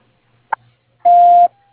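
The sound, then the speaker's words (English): A voicemail system plays one loud, steady, mid-pitched tone to start recording a message, preceded by a brief click in otherwise near silence. “You have reached the voicemail of Don Gillis. Please leave your message at the tone.”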